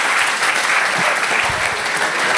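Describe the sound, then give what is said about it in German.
Steady, dense applause from an audience thanking a player at a live game event, a continuous wash of many hands clapping at even loudness throughout, with no voices standing out. “Also nochmal Applaus bitte für ihn.”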